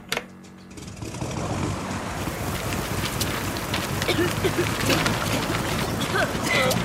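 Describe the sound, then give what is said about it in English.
Martian wind sound effect on a film set, a steady broad hiss like rushing air or rain that swells in after a quiet moment and holds with faint crackles. “Turn on the Martian winds.”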